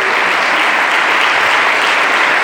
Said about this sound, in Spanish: Le agradecemos a ustedes un fuerte aplauso.